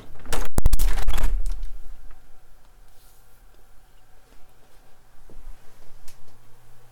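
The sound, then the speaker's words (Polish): A window being closed, with recording devices held fairly close to it: a loud cluster of sharp clattering knocks and rattles in the first second, followed by a quiet, steady low hum and faint ticks. “Otwieram, najpierw trzymając urządzenia w miarę blisko okna. I teraz zamykam.”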